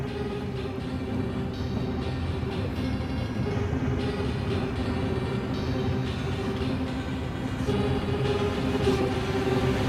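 A vehicle carrying a load of whisky approaches with a steady, dense engine rumble. It stays fairly constant in loudness throughout, with no voices.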